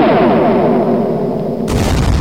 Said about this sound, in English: Then an angel came down and fired his proton torpedoes.